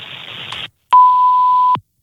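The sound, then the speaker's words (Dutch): A voicemail beep before recording a message: one steady, mid-pitched electronic tone that lasts just under a second, loud and clean against silence. “Spreek uw bericht in na de toon.”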